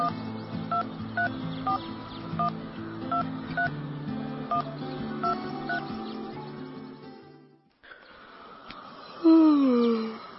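Telephone keypad tones as someone dials a number: many short electronic beeps of varying pitch in an uneven rhythm, pressed one after another.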